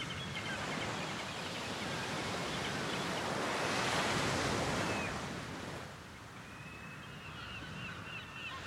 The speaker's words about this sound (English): And more wave sound effects.